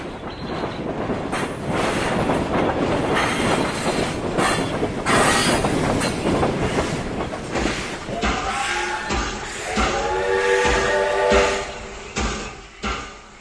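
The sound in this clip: A train locomotive slowing down, a loud continuous rumble of rolling wagons that gives way in the second half to high squealing wheels and a few sharp metallic clanks and slams as it brakes.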